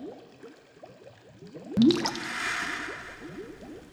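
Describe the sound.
Hot spring water splashes once, a sudden loud slosh, then gives way to a steady, softer rush and trickle that continues to the end, with faint low clicking underneath.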